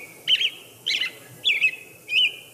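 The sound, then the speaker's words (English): American robin chirping in springtime: four short, high, bright chirps evenly spaced across a quiet background, with no other sounds. “when they hear robin around springtime, when they return, and this is what you hear is cheep, cheep, cheep”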